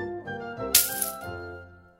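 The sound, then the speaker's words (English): Gold coins clink as a payment is handed over, a brief metallic jingle and rattle with one bright burst in the middle before quickly fading. “He paid the tricksters 2 bags of gold coins to begin.”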